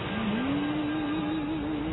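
A police car pulls into a cafe parking lot, giving off a steady engine hum. Its low tone rises slightly at first and then holds level, moderately loud, with no talking.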